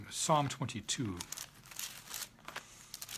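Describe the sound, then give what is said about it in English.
Thin Bible pages rustle and flip in several crinkly, papery bursts, following a short stretch of speech. “this has got really thin paper in it. So a short little slap of the Bible and it moves way too far.”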